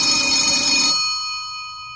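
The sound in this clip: A telephone rings with a single loud, bright bell-like burst that stops abruptly, leaving a ringing tail that fades away. It is heard alone.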